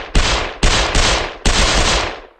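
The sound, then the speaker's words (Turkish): Loud shotgun gunfire rings out in a few sharp, rapid bursts, each blast decaying briefly before the next, with no voices present. “O gece bir tek silah sesleri duyulmuştu.”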